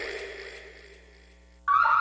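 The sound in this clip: An alarm goes off in a home or business as a monitored zone is activated. A loud, steady electronic tone bursts in abruptly near the end, after a quieter stretch.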